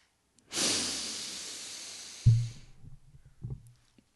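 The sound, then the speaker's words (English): A deep breath in and out, heard as one long, airy hiss of about two seconds during a breathing exercise. Two soft low thumps follow. “Take it in. And let it out. One more breath.”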